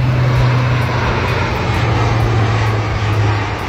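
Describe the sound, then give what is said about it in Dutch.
Engine drone of a low-flying military transport aircraft: a loud, steady roar with a low humming tone underneath, holding level and unbroken from start to finish with no voices. “Vanaf maandag gaat de Defensie 2 weken lang trainen met militaire transportvliegtuigen. En die mogen dan ook laag vliegen.”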